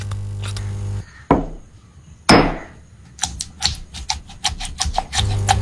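Stone pestle grinding chilies in a stone mortar for sambal: two heavy scraping grinds, then a rapid series of sharp knocking taps.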